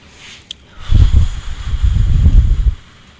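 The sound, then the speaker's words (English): Deep breaths taken before a group prayer at a meeting: a slow, airy breath in and out with low rumbling noise against the microphone, lasting about two seconds, with no talk. “So I like to take a couple deep breaths before I start.”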